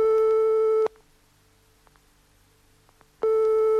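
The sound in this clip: Telephone line tone on a call that goes unanswered: two steady, buzzy tone bursts separated by a long silent gap.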